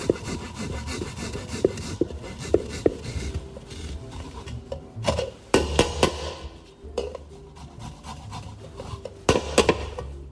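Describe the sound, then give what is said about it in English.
Garlic grated on a microplane into a bowl of egg yolks, a run of many rhythmic rasping scrapes with a few sharper knocks. “use my microplane to grate the garlic right into the bowl with the egg yolks.”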